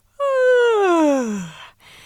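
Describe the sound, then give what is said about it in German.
A woman yawns with a long voiced moan that slides steadily down in pitch for over a second, then ends in a soft exhaled breath. “Sie musste wieder gähnen.”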